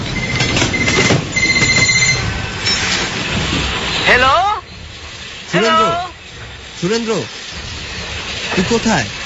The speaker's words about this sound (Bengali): একটা রেল স্টেশনে ট্রেনের অপেক্ষায় সে লুকিয়েছিল।